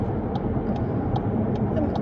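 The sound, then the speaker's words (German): A car overtakes trucks on a motorway with a steady, loud low roar of engine and road noise, and faint ticks repeat at a regular pace over it. “Gott, wir überholen hier LKWs, liebe Leute im Radio.”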